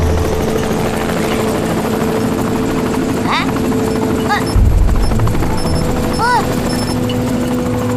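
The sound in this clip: Steady droning rotor and engine noise of a small aircraft taking off fills the whole clip, with a few brief rising whistles and a short heavy low-pitched rumble partway through.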